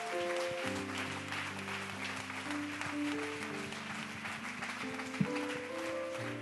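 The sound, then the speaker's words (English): Audience applause welcomes a freshman class: steady, even clapping held at a moderate level, with sustained musical tones underneath throughout. “This is a wonderful freshman class. We're so proud to have you here. Give them a great big hand and a great big welcome, will you?”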